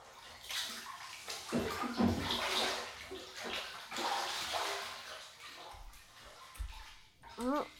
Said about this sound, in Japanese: さて、じゃあ、私は先に体を洗おうかな。